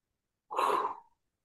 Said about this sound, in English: Through your nose, breathe in.